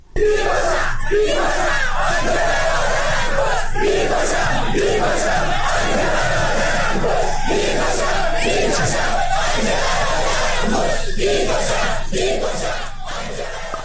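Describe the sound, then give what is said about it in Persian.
Protesters chant slogans against government forces: a loud crowd shouting in rhythmic unison, with the chant rising and falling in repeated phrases and never stopping. “گزارش های رسیده حاکی‌ست معترضان با شعارهایی چون ما همه اهل جنگیم، به جنگ تا به جنگیم، به مقابله با نیروهای حکومتی پرداختند.”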